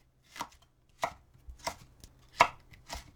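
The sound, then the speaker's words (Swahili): A knife chops a bell pepper into long strips about 5 millimetres wide, giving a slow, uneven series of a few crisp knocks with quiet gaps between them. “Katakata pilipili hoho vipande virefu vya upana wa milimita 5.”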